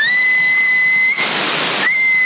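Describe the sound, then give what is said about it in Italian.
A steady, single-pitch whistle sent over a CB radio on 27.075 MHz in Sassari, sounding thin and narrow through the radio band. Midway a burst of hissing static briefly replaces it, then the tone returns. “35 watt, prova a fischiare a vedere.”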